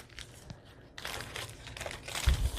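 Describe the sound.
Crinkling of a glassine bag handled during a nature journal flip-through, a steady papery rustle that grows louder toward the end, with a soft low thump near the close.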